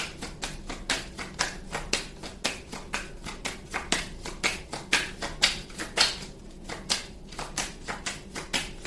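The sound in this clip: Cards dealt one by one from a split deck make many quick, crisp snaps in a steady, even rhythm, with no talk over them.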